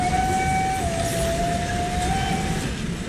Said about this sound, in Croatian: Ne, ovo nije moj mladenački zvižduk. To je zvižduk vlak.